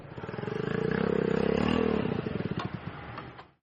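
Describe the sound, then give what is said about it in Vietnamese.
Engines of four new-model motorbikes pulling up in front of a vegetarian restaurant: a loud, steady motor drone that swells, dips in pitch as the bikes slow, and then cuts off. “Vì lúc đó có đến 4 chiếc xe gắn máy đời mới chạy đến trước quán.”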